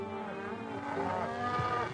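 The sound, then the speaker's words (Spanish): Cattle mooing, a drawn-out, low, harmonic lowing that swells in the middle over a steady background drone. “Detrás iba otro grupo con 50 cabezas de ganado.”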